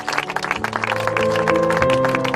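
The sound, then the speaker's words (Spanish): Applause after Pablo Casado's speech at a memorial event in Rentería, Gipuzkoa: dense, sustained clapping with a steady held tone underneath, growing fuller after the first half second. “Son los aplausos tras las palabras de Pablo Casado durante un acto en recuerdo a Manuel Zamarreño.”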